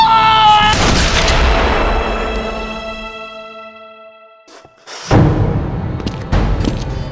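A Walker Colt revolver fires a loud, booming shot that rings and slowly decays over several seconds. Two more sharp blasts follow near the end.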